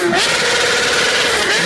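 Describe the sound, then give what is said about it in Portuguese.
A motorcycle used for wheelie stunts revs loudly, a dense, continuous, gritty engine roar at steady strength throughout. “Isso é uma moto ou isso é o cavalo do Satanás?”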